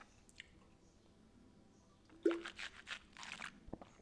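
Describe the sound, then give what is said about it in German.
A person taking a drink: faint early ticks, then a soft gulp followed by a few quiet, wet swallowing sounds. “Und nach dem muss ich erstmal kurz was trinken.”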